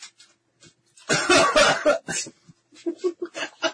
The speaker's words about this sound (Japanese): 風邪絶賛引き中なんで、咳が、もしかしたら、お耳を汚すかもしれませんが